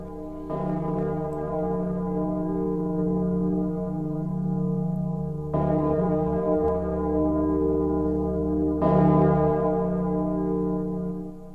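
A village bell rung to summon villagers, its sound carrying across mountains and forest: three deep strokes at slow, uneven intervals, each ringing on in a long, humming sustain.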